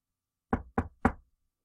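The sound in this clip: Three sharp knocks rap out in quick, even succession, each loud and clear against complete silence.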